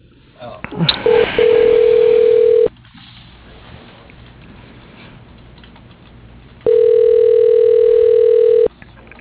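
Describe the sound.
Telephone keypad tones choosing an option in a company's automated phone menu: two long, steady mid-pitched tones separated by a quiet stretch of line hiss. A brief clattery burst comes just before the first tone.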